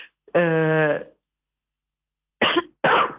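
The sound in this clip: A person coughs twice in quick, harsh bursts, preceded by a short voiced throat sound and a pause of silence.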